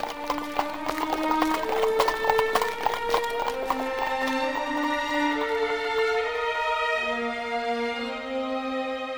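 Horse hooves clip-clopping as a farmer's horse-drawn carriage moves off, a quick run of sharp clops mostly in the first half, over a gentle sustained melody.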